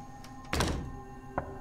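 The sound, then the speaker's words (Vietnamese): Knocking on a door: a few dull, muffled thuds, with a heavier cluster first and a single knock after a short pause. No voices. “Tiếng gõ cửa văng vẳng.”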